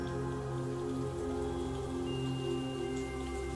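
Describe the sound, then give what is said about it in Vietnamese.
Steady rain falls on surfaces in a dense, even patter of many drops, holding a constant loudness throughout with no pauses. “Mưa bắt đầu đổ xuống, mưa dần dần nặng hạt.”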